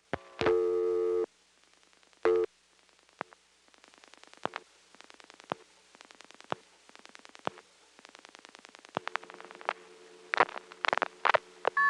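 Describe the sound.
A telephone call placed to a vacant number on the Greenville exchange: a steady line tone, then a long run of short clicking pulses, ending in louder repeated intercept tone bursts.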